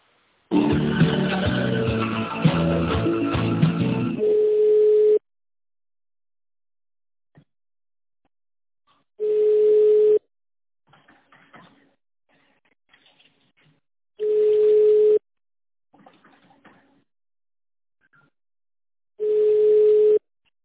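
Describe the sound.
Telephone tones play while a call is transferred: a dense tonal burst of about five seconds opens, followed by three separate one-second tones about five seconds apart, with near silence between.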